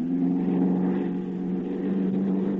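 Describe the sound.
A light airplane engine runs over a dark, unlit airfield with a steady, low, even drone and no talk.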